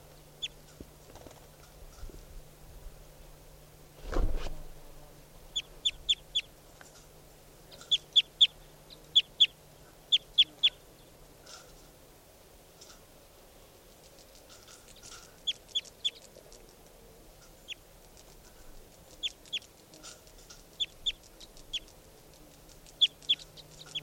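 Bird calls, with fowl-like chirps: many short, high chirps come in scattered bursts and clusters over a quiet background, with one low thump partway through.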